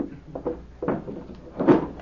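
A wooden table drawer is pulled open, with a few soft knocks and a scraping slide that ends in a louder thump.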